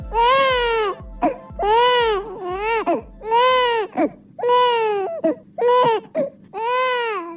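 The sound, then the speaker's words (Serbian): An infant cries in repeated loud, harmonic wails, each burst arching in pitch, with short catches of breath between them and no other voices. “Ovaj zvuk plača bebe u Bosni i Hercegovini, sve se slabije čuje.”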